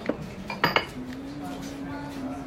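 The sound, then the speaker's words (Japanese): Dishes and cutlery clink as plates of food are served at a restaurant table: a few sharp clinks of crockery early on, then quieter background. “料理が続々とすご いです、ね、 続々と来るからハイペースで”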